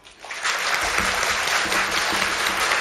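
Studio audience applause at an early-morning live Polish radio broadcast, swelling quickly from near quiet and then holding at a full, steady level of many clapping hands.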